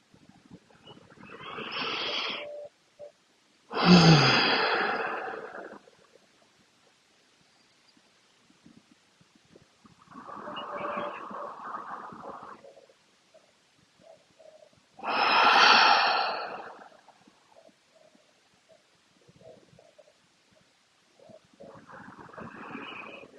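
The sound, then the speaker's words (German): Slow, deep breaths during a guided relaxation exercise. There are about five airy, rushing breath bursts spaced several seconds apart with quiet pauses between them, and no talk. “nimm dir einen Moment für ein paar tiefe, nährende Atemzüge, ob mit offenen oder geschlossenen Augen.”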